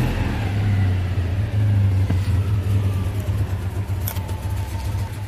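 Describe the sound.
A car engine idling in neutral gives a steady, low rumbling hum with an even, unbroken drone and no clear revving, heard alone without voices.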